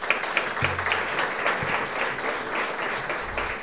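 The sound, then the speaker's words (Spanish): Applause from an audience at a forum on freedom of expression and women's participation in Guatemala: dense, steady clapping that holds at an even, moderately loud level throughout, with no talk over it. “Por favor, brindémosle un aplauso.”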